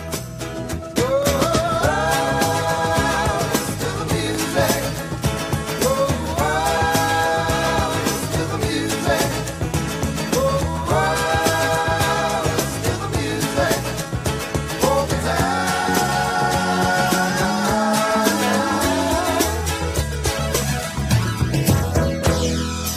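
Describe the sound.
A live band plays an upbeat rock song with drums keeping a steady beat, with sung vocal melody lines over the instruments. The music is loud and continuous throughout.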